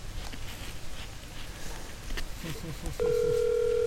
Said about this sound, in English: Let's call Heath. He won't answer.